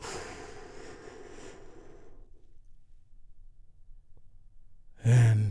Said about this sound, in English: We do that by taking a big, deep, healing breath all together.